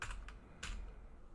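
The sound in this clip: Computer keyboard keys clatter as a chat command is typed, faint quick clicks arriving in two or three short bursts with brief pauses between them.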